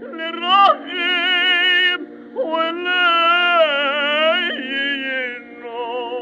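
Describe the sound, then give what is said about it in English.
A cantor's singing voice with a sobbing vocal ornament: sustained, wavering sung notes broken by a few sharp catching sobs between phrases, loud and alone. “It's that little sobbing sound.”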